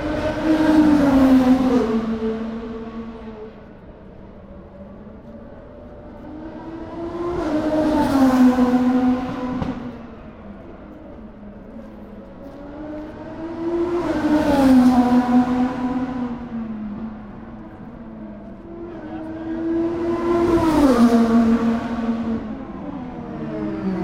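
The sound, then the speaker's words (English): IndyCar race cars brake between turns 3 and 4, with four loud engine passes that each swell and fade as the high engine note drops in pitch while the cars slow. “And now we head halfway between turns 3 and 4 as the Verizon IndyCar Series fire into the brake zone.”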